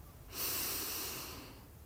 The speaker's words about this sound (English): feeling your in-breath and out-breath, breathing in